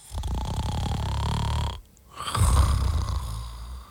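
A sleeping person snores: two long, rough, rattling snores, separated by a short quiet breath, moderately loud and alone.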